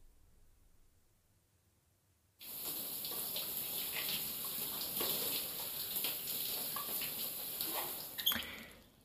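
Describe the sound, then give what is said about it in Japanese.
Water running in a bath while someone is being washed, a steady hissing stream that starts abruptly after a quiet opening and continues to the end, with a brief louder burst shortly before it finishes. “今日は疲れてるだろうし、お風呂入ったら体洗ってあげるね。”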